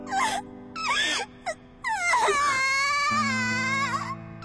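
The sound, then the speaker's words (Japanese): A girl cries in a few sobbing wails with short gasping breaks, then breaks into one long, high, drawn-out wail that wavers to the end. “泣かないでよ。”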